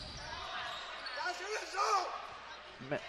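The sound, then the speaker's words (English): Basketball dribbled on a court during a women's game as Mountain Home brings the ball up. Steady bounces sound under continuous commentary and crowd noise. “Husky into the front court, dribbles to the right side.”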